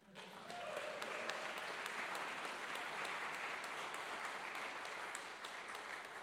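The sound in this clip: Sustained audience applause welcoming a bishop to the stage: steady, dense clapping that starts abruptly, holds at an even level for several seconds, then eases slightly near the end.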